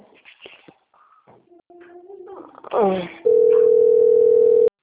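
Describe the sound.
A loud, steady telephone call tone rings as one unbroken note for well over a second, heard when a bank is calling. Softer sounds come before it.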